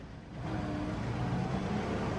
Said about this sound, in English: Cars converge on a clearing.